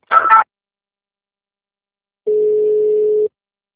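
A telephone tone plays while a call is being transferred: one steady, mid-pitched electronic tone lasting about a second, preceded by a brief burst of sound at the start.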